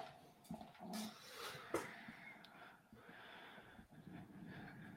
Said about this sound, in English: that was a long breath. he's about to spit a bar.